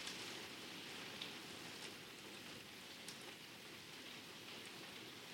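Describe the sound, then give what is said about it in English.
Rain falls in a steady, even hiss, with a few scattered drop taps standing out. The level holds constant throughout, and no voices are heard. “Then you love to listen to how the rain picks up and then calms all the way down.”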